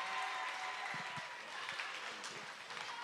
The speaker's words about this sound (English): Hey, put your hands together.